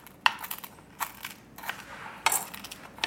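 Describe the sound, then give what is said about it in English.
A crust mixture is crushed and pressed down, with a few faint, crunchy, crackling bursts separated by quiet gaps. “Oh, we're supposed to crush it. It's got to mold into the crust.”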